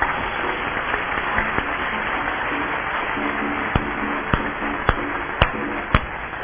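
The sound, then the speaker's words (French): A church audience applauds in praise during a service, a steady, dense clatter of many hands clapping throughout. A few sharper, louder individual claps stand out toward the end. “Est-ce que nous pouvons acclamer le Seigneur pour sa parole?”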